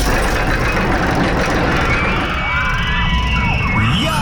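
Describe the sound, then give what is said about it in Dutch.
A roller coaster runs at an amusement park, giving a loud, continuous rumbling roar with faint, thin whining tones drifting above it. “als je de achtbaan hoort rijden”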